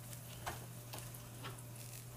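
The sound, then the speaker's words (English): Spam fries in a pan with a faint, steady sizzle and a few soft crackles over a low hum, and no voices. “Okay, my Spam is cooking.”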